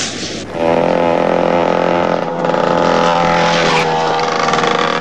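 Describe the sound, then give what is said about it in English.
A dirt bike speeding down a road, its engine a loud, steady buzzing drone that surges up after a brief quieter start and holds strongly throughout. “Ricky speeds down the road on his dirt bike”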